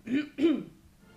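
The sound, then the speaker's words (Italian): Two short, throaty coughs from a person with a slight cough, each a brief rough burst close together, then quiet. “c'ho un po' di tosse, quindi avevo bisogno di tossire un attimo in separata sede”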